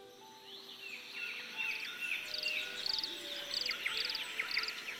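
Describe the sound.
Birds sing in a forest, giving faint, repeated high chirps and trills that overlap steadily above a soft background hiss.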